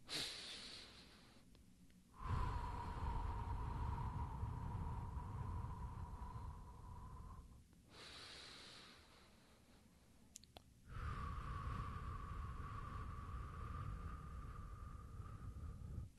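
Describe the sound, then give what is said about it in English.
Slow, deliberate breathing runs through two cycles, each a short, quieter inhale followed by a long, steady exhale through the mouth. Each exhale carries a breathy whoosh with a faint whistling tone. No talking. “And then you breathe it out through your mouth to a count of 10. So I'll do it right here with you. And in this microphone, you will be able to hear how this whole process goes.”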